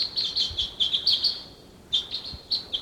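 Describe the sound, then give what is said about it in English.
Decoy birds call with wild birds around them: many rapid, high-pitched chirps and tweets in clustered bursts, a short lull midway, then more chirping at moderate loudness over faint background noise. “Decoys calling.”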